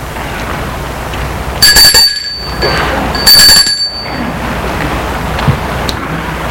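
A doorbell rung at the door of a house reached across a courtyard: two bright chiming rings, roughly a second and a half apart, each a short, steady tone over constant background noise.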